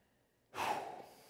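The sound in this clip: A person takes a single sudden, airy breath. It swells quickly and then tails off in under a second, with no talk around it.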